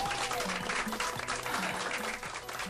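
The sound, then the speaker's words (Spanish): Crowd applause, a dense and steady clapping that stays loud and continuous from start to finish with no pauses. “Más aplausos, muchos aplausos.”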